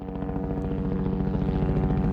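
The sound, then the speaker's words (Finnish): Low-flying helicopter doing power-line tree trimming, a loud, steady rotor and engine thrum with a fast, even throb that continues unbroken for the whole stretch, with no voices. “Helikopteri lentää matalalla ja aiheuttaa jonkin verran melua.”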